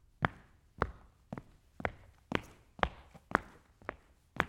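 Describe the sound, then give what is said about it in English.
Footsteps on a hexagonal parquet stage floor: nine crisp, evenly spaced wooden steps in a steady walking rhythm, each a sharp tap with a short knock-like body. “here's the sound of someone walking on the stage, which is a hexagonally shaped parquet floor.”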